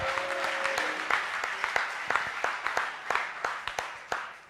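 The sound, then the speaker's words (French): A crowd applauds during a church service with dense, steady clapping and many sharp individual claps. It holds at an even level and eases slightly toward the end. “On acclame Dieu pour Yam Sokro.”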